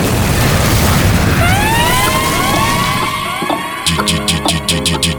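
Explosion sound effect from a DJ drop: a loud, noisy boom with whistling tones sweeping through it, then a short sharp hit before a rhythmic beat kicks in.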